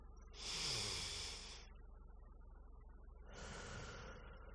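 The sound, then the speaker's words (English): A big, deep breath drawn in and then let out: two soft, airy rushes of breath noise separated by a quiet pause. The inhale is louder and brighter than the slower exhale. “Maybe take in a really big, deep breath.”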